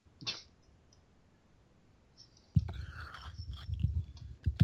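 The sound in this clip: Someone chews a maple syrup filled snack, producing crunchy, wet munching bites after a mostly quiet opening with one brief click. The chewing is moderately loud and irregular.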